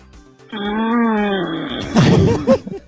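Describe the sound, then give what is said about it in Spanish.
A voice imitates snoring, beginning with a sustained, moaning voiced drone and breaking into a rougher, raspy, noisy rattle toward the end. “Hay que grabar esos ronquidos, ya los tendremos de trigger en algún momento.”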